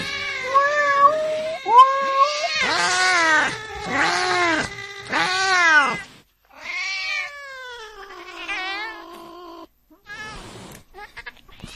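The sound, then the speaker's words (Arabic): A cat meows and caterwauls in a long run of loud, drawn-out wailing calls, each swooping up and down in pitch, its tone turning harsher and stranger in the later calls, with no talk over it. “لكن صوت القطة اتغير.”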